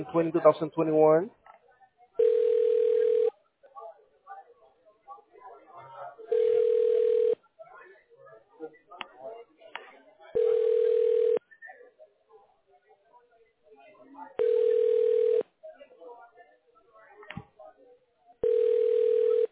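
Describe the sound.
An unanswered telephone line rings out: five steady ring tones of about one second each repeat at even four-second intervals. A brief voice comes at the start, and faint clicks and murmurs fill the gaps between rings.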